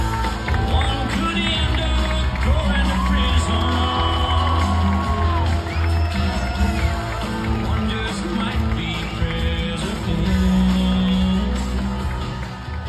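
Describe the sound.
Crowd cheering at a Trump rally in Iowa, a dense, steady roar that holds throughout with whoops and scattered voices mixed in, staying loud from start to finish.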